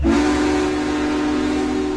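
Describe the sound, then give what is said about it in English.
Steam locomotive whistle from Union Pacific Big Boy 4014, the world's largest operating locomotive, sounding one loud, sustained, steady-pitched chord-like blast that holds without break, no voices. “Union Pacific's Big Boy number 4014 is stopping in Colorado as part of its Coast to Coast America 250 tour.”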